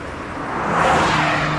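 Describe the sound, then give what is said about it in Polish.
A Honda HR-V car with a 1.5 turbo engine drives past as a sound effect in an advert, its broad engine and road rush swelling steadily in loudness and holding strong to the end, with no voices. “Nadjeżdżają święta wielkiej mocy. Napędzane nową mocą. Nowa Honda HR-V. Teraz z nowym silnikiem 1.5 turbo.”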